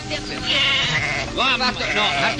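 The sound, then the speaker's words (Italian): A lamb bleats in wavering, harmonic cries that rise and fall, heard among people talking over each other. “Che ci fa l'agnellino?”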